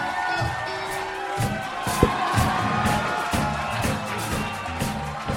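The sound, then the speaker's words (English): A comedy show audience cheers and claps, a continuous loud crowd roar with scattered whoops and shouts running throughout. “Point to the audience. Here, you gotta. Give it up for Rob, ladies and gentlemen.”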